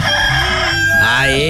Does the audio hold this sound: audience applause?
no